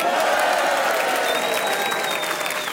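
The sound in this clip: A live audience in the Spiegel tent applauds with continuous, dense clapping that stays loud and even from start to finish.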